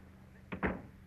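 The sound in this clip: A door being closed quietly behind someone leaving an office: two brief, soft knocks in quick succession, like the latch catching and the door settling, over a faint low hum.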